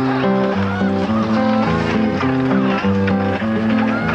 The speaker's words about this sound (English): Kind of start strumming back and forth like this and get a sound out of it.